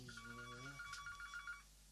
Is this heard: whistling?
no